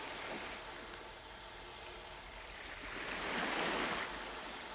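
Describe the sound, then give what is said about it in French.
Calm sea waves wash onto a beach in a continuous soft rushing hiss. One wave swells noticeably louder near the end, then begins to ebb. “Écoutez le bruit des vagues qui viennent jusqu'à vos pieds.”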